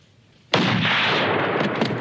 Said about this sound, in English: All of a sudden, he shoots the guys.